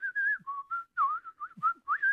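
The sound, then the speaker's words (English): A person whistling in the wavering vibrato style of an older painter-decorator up a ladder: a quick string of short, warbling notes that hop between higher and lower pitches, clear and fairly soft against silence. “we've all heard those older painter decorator types that can whistle in a beautiful vibrato, usually to a completely unrecognisable tune. You know, that's those lads up ladders that go.”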